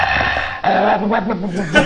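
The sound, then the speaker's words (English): Dog growling and yipping: a low, wavering growl runs continuously for about two seconds, with higher whimpering yips breaking through it. The sound is loud, with no talk over it. “Actually, the dog was interviewed, and he had something to... He had a quick soundbite to say.”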